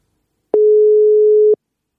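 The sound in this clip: The ringing tone of an outgoing telephone call: a single steady, pure beep of about one second. It is loud and clean, with silence on either side.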